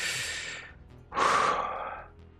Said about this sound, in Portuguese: Você respira.